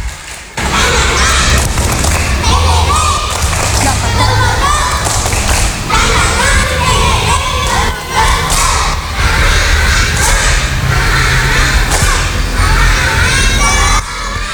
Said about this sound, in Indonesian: Siap semua? Ya, konsentrasi. Dimulai. Ya, tepuk semangat.